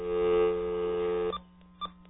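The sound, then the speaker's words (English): Touch-tone dialing of a New York phone number heard over a narrow, tinny phone line: a steady tone holds for over a second, then two short beeps follow. “Here we are dialing in. That's a New York number.”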